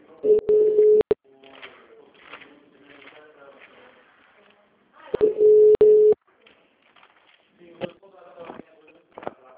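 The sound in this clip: A telephone busy tone after a dropped call comes as two steady mid-pitched tone bursts, each about a second long, with faint muffled voices in the gaps between them.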